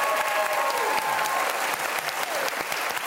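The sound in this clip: A talk-show studio audience applauds to welcome a guest with brisk, continuous clapping, while a few voices cheer over it.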